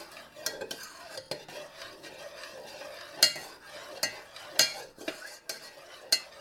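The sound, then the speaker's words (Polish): A utensil gently stirs eggs mixed with sugar in a bowl, giving a continuous soft wet swishing and scraping with a few sharper clinks against the bowl's side. “dodaję kolejne składniki, czyli jajka wymieszane uprzednio z cukrem. Delikatnie je sobie mieszam.”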